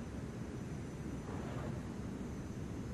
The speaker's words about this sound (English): No, that was the plane, like, going onto the runway or something.